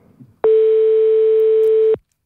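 A telephone line tone sounds while a call is placed: one loud, steady, unwavering tone holds for about a second and a half and then cuts off, with no voices.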